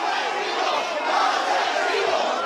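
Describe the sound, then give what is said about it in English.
An enraged crowd of flood survivors in Spain jeers during a royal visit to a flood-hit area, a dense, continuous roar of many shouting voices with no break. “An enraged crowd of flood survivors pelted them with mud and rocks.”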